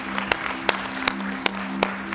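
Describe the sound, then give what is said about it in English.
Rhythmic unison clapping from a worship audience celebrating, five evenly spaced sharp claps over a steady held tone. “I want you to just rise with me and let us just celebrate by just clapping.”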